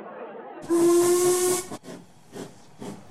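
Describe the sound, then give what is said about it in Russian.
A steam locomotive whistles and vents hissing steam as the train departs Allahabad for Benares. A loud, steady whistle tone rides over a broad hiss, followed by a few softer rhythmic chuffs. “5 минут спустя поезд стал удаляться от Аллахабада по направлению к Бенарес, расположенного на расстоянии 80 миль.”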